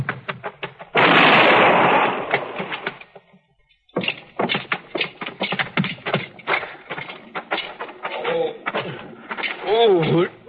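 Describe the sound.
A single loud gunshot, fired at a man fleeing arrest by a marshal's party, bursts out sharply with a short trailing roar, and people talk before and after it.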